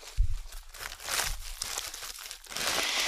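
Crinkling of a Schokobon chocolate candy wrapper: a continuous rustling crackle that swells and eases in a few waves, bright and papery, with a soft low thump near the start.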